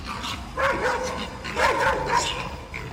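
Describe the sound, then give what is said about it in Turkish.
Kangal-type dogs bark and yelp while two of them attack a wild boar in a street. A few sharp, moderately loud barks rise over a steady noisy background. “Sokakta yiyecek arayan yaban domuzu, biri kangal cinsi iki köpeğin saldırısına uğradı.”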